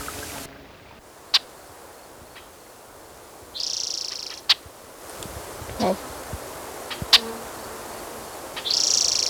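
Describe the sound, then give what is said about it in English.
Blackbirds calling: a few brief, high chirping bursts and sharp ticks, scattered across a faint, hissy background. “There's blackbirds.”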